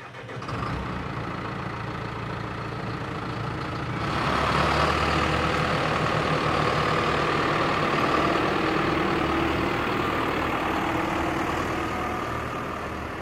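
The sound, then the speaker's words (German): A farm vehicle engine hauls a load of flax seed out to a field in the Emmental on a mild spring day. Its steady low rumble swells slightly after a few seconds and then holds evenly. “Adrian Brücker fährt mit einer Ladung Flachssamen aufs Feld”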